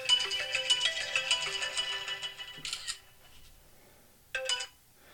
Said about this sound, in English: sorry about the phone there.